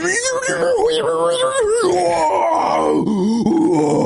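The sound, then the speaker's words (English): A man's voice imitates the strained groan of a man pulling himself up with heavy weight hung around his waist, one long, drawn-out, wavering groan that sinks lower in pitch partway through and carries alone for about four seconds. “there was a guy this morning just groaning the most hilarious groan, and he was doing something pretty hard”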